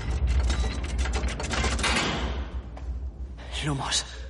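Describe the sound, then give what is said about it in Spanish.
Heavy metal clanks and ratcheting grinds as the lock mechanisms of a sturdy metal vault door engage after it swings shut, dense and loud throughout. “la puerta se cierra y se activan los mecanismos de su cerradura.”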